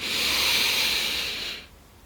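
A deep breath in, drawn as one long, steady, airy hiss that lasts about a second and a half and then stops, with nothing else heard.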